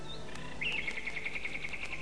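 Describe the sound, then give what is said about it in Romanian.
A nightingale sings in faint, bright chirps, a thin opening note followed by a rapid, even series of high repeated pulses. “Auzi? Privighetoare. E ora la care începe să cânte.”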